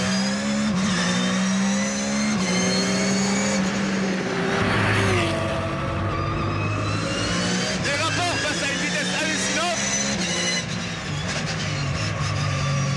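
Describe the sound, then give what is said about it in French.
A car engine revving hard to about 9500 rpm, its loud, high-pitched howl rising and dropping through several gear changes as it accelerates. “Moteur qui prend 9500 tours. Vous avez bien entendu, 9500 tours.”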